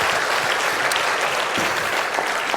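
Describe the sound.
Audience applause welcoming a speaker to the stage at a conference talk, a dense, steady clapping that holds at an even level throughout.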